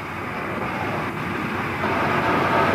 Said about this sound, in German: Die Bahn fährt immer.